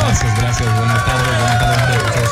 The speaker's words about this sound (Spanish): ¡Fuerte el aplauso!